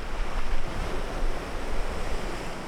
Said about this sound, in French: Les galets roulent sous la mer.